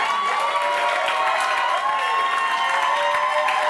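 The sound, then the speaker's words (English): Raucous applause from a crowd for a performer walking off a stage: dense, steady clapping that stays loud and even throughout, with no talking over it. “As Shane walked off the stage, the crowd gave the ponytail a raucous applause”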